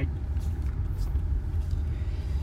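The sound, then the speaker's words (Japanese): A car moving in the dark gives off a steady low rumble of road and engine noise. The deep drone is fairly quiet and even, with slight fluctuations and no distinct events. “暗闇の中で車は動いてて”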